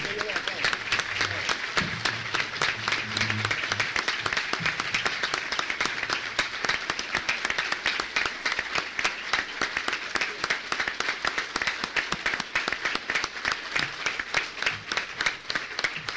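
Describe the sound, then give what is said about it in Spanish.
Audience applause at an annual assembly of national agricultural producers: a steady, rapid patter of many hands clapping that holds for the whole sixteen seconds, with some voices audible beneath it near the start. “Todos tienen que darse un aplauso. Todos ustedes un aplauso a lo que ustedes representan.”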